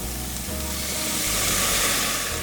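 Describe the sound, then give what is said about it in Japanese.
Loud, steady sizzling of a pan stir-frying shrimp shells, garlic and aromatic vegetables with brandy over high heat, a continuous hiss over low rumbling. “ここにブランデーを入れます。強火で一気にふわっと炒めます。”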